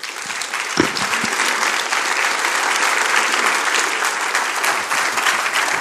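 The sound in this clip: A church audience applauds to welcome a guest at a house of prayer service. The clapping is dense and sustained, holding at an even level throughout with a single low thump early on.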